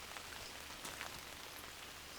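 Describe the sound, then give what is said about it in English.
Rain falls on a huge garden umbrella outdoors, a faint, steady, even patter of drops with no pauses. “I'm underneath a huge garden umbrella, and I wonder how you feel about the sound of rain generally.”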